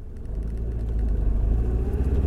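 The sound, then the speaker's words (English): A car driving up to a park, its engine giving a low, steady rumble that holds throughout and grows slightly louder toward the end. “so I'm driving up to the park now.”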